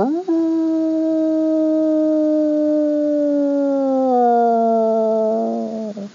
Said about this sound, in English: the wolf song is almost mournful and long